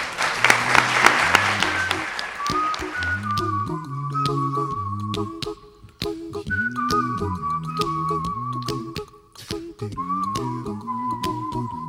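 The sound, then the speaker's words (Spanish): Audience applause at a student performance, a burst of broad clapping over the first few seconds that fades as a tonal, melodic instrumental tune takes over and continues alone. “Un aplauso para todos ellos.”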